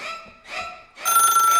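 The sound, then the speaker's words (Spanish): A telephone rings in two short electronic bursts, then a longer, louder and brighter ring, with no talking. “¡Hay llamada!”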